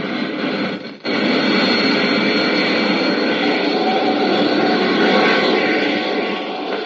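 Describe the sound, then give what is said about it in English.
Spaceship braking rockets fire during a tail-first landing on the moon's dusty surface: a loud, steady roar that cuts out briefly near the start, then surges back and holds. “Skillfully, Flash manipulates his craft's braking rockets. The soft pumice dust of the moon's surface is going to make the landing hazardous. Slowly, the ship settles down, tail first.”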